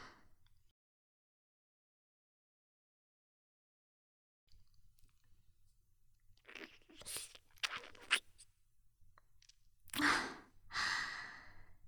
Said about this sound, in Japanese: やっぱエナドリって、ストローで飲むのが一番美味しいよね。